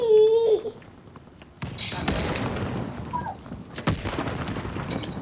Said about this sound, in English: Oh, it's a shotgun. Nice.